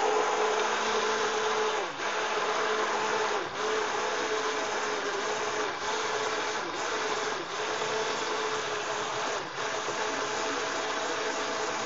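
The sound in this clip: A blender whirs while making a milkshake, its loud, steady motor drone running throughout with a few brief, regular dips in strength.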